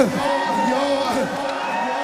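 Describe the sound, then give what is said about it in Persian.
A crowd shouting together: many overlapping voices cry out loudly and continuously, with wavering pitched shouts rising and falling over a dense roar of noise. “قربون این داد زدن هاتون، کاش این داد زدن ها اجازه بده من روزه”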